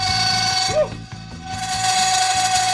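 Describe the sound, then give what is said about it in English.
A flipped-over cast iron pan set on chunks of dry ice sings as it cools. A fast, rattling mechanical chatter runs throughout, and a steady, pure high tone rings out over it in the second half. “And we are now putting the cast iron over the chunks of dry ice.”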